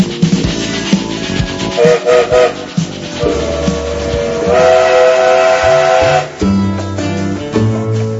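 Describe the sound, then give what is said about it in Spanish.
A train whistle shrills over the rumble and clatter of a departing train. Short whistle tones come first, then a long sustained blast, all over dense rolling noise. “súbanse, que este tren se larga con Tuti”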